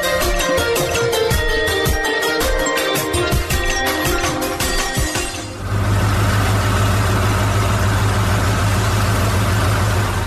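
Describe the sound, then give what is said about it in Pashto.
A car engine idling after the car arrives: busy rattling and clattering noise gives way to a steady, loud low engine hum with a rough, even drone that continues unchanged to the end. “راځه چې موټر راغې”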